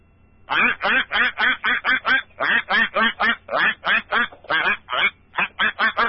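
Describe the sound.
Duck quacking in a rapid, regular series of many short, nasal, buzzy calls, loud and evenly spaced, with only brief gaps between them.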